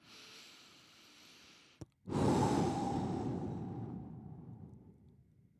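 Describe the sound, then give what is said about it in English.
A slow deep breath: a soft inhale of nearly two seconds, a brief click, then a longer, louder exhale that fades out gradually. “I want you to take a deep breath with me right now. Take another one.”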